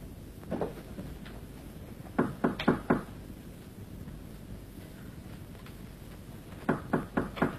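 Knocking on a door in a staged traditional Chinese opera scene: a lone knock, then a quick series of four raps, a pause, and another brisk series of four, over a steady low background hiss.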